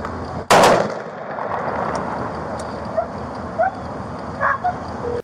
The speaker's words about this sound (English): Before he could pull the trigger, two officers almost simultaneously pulled theirs.